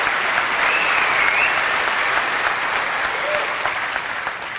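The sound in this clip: An audience applauds to welcome a speaker, a steady, dense wash of clapping that holds evenly throughout and eases off slightly at the very end.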